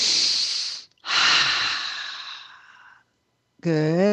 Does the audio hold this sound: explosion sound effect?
no